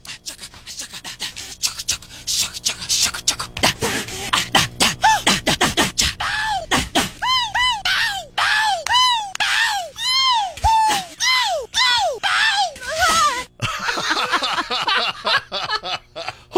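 A singer's non-word vocal noises from one song are edited together by intensity. Quick clicks and breathy grunts give way to many sharp, high, arching yelps and whoops in a dense, rapid-fire sequence.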